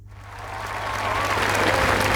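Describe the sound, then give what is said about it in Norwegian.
A crowd applauds the royal family as they appear on the palace balcony. The clapping starts faint and swells steadily into a loud, dense roar of applause, with a thin cheering tone running through it. “Kongefamilien hilser nå folket fra slottsbalkongen. De ble møtt med applaus.”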